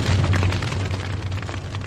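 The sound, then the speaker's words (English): Chemicals and laboratory equipment ignite into a blazing fire with a loud, booming roar. The burst stays dense and rumbling for about two seconds, with crackling texture over a deep low rumble. “the two figures smash into chemicals and equipment, which ignite into a blazing inferno”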